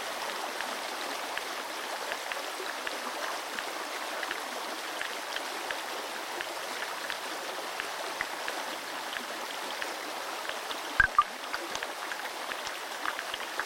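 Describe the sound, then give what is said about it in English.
Underwater in a stream, minnows feed and caddisfly larvae call as a dense, faint crackle of fine ticks and clicks over a steady rushing bed, with a couple of louder knocks late on. “You can hear the sound of minnows feeding and the calls of caddisfly larvae, who signal to each other to define their territories.”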